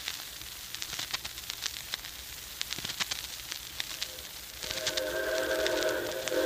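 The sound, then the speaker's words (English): A Hudson 4-6-4 steam locomotive train arriving produces a faint, steady run of clicking, clattering beats. Near the end a sustained tonal hiss sets in and grows a little louder. “here she comes. Yep, right on time. Yeah, it's a 464 type locomotive. Looks like a Hudson.”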